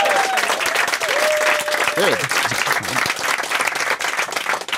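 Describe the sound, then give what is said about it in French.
A studio audience at a television talk show claps loudly and continuously throughout. A voice rises briefly over the dense, even applause. “Qu'on applaudit fort.”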